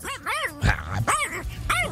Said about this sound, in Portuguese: Pare, homem, largue da barra da minha casa, Totó. Pare com isso, rapaz. Ah, cachorro.